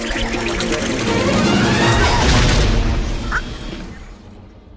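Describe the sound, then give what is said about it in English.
A robot blasting a hole through a ceiling in an animated film scene: a loud, booming roar with rumbling, crackling debris that stays heavy for several seconds before tapering off near the end. “She blasts a hole through the ceiling just as the rogue bots arrive.”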